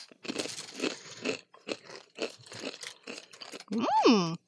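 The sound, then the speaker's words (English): Crunchy chewing of dry grilled-chicken-flavour ramen snacks, a run of crisp, irregular crunches at moderate loudness, with a short voiced sound near the end. “Okay, these are the grilled chicken flavor. Okay, I should stop eating these.”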